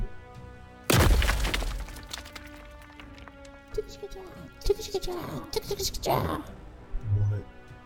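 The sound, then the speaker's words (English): An energy-beam blast from an advanced weapon, a sudden loud crashing, shattering burst followed by lower rumbles and scattered crackles, with voices afterward. “What was that? The beam came from this planet, but it was from a weapon as scientifically advanced as anything I've ever encountered.”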